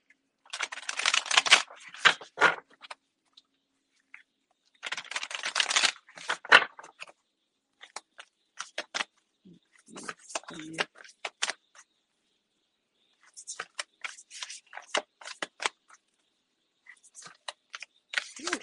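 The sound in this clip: A deck of stiff cards being shuffled: several bursts of rapid, crisp fluttering clicks, separated by pauses and scattered light taps, with no voice.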